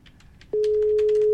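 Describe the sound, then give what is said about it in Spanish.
A phone busy tone after a rejected call: a loud, steady single-pitched tone cuts in abruptly partway through and holds unbroken to the end, over faint background noise. “No contesta todo. Nada, me rechazó la llamada.”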